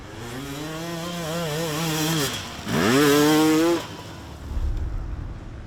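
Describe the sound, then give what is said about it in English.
Racing motorbike engine starting then stalling: a buzzing, high-revving note holds, dips briefly, climbs in pitch again, then cuts out, leaving only a faint low rumble. “as soon as I press the bottom, my bike start like starting, but then stalling again.”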